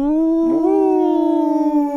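A wolf howls in one long, sustained, tonal cry that lifts slightly near the start, then holds steady and slowly sinks, with a faint wavering toward the end.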